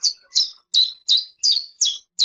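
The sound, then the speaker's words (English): Chiffchaff song, partly AI-generated, with seven clear high chirps in an even, steady rhythm, each a short, bright note sweeping downward, heard alone against silence. “We can do this with chiff-chaffs, which are a type of bird that we can put in 3 seconds of them sort of vocalizing”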